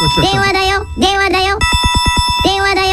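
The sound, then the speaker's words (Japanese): An electronic telephone ringtone plays a bright, melodic jingle for an incoming New Year message call. A rapid trilling burst in the middle is followed by the tune resuming. “電話だよ 新年メッセージ電話がつながりました。”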